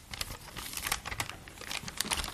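Faint, quick crinkling and rustling of faded colored tissue paper handled in old paper-filled notebooks, a dense scatter of soft crackles with no voices.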